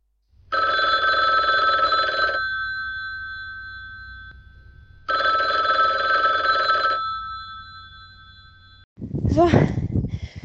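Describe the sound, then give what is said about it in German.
A telephone rings twice for a call to a rider during a mountain-bike marathon stage: two steady bursts of bright bell tone, each about two seconds long, separated by a pause, then a voice answers. “Darum haben wir Nicole angerufen.”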